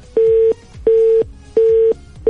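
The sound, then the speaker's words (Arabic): Busy tone after a telephone line cuts off during a call: four identical steady mid-pitched beeps at an even rhythm, separated by short gaps, the last one cut short. “انقطع الخط.”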